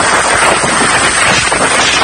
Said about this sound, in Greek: This thing is a beast, and having 3 hours of winds like this is most certainly going to do significant damage here.